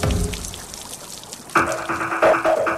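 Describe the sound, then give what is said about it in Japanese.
Liquid pouring and splashing as fermenting orange juice is dumped out of a plastic bottle: a noisy gush at first, then a louder stretch of ringing, tonal bubbling. “せっかく出した発酵するオレンジジュースをドボドボと捨て始めた”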